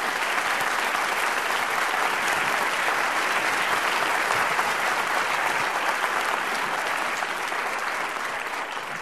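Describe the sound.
Audience applause welcoming jazz pianist Dr. Billy Taylor to the stage, a steady, dense wash of clapping that holds at an even loudness for about nine seconds with no voices over it.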